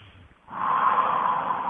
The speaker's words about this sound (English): And you take a deep breath,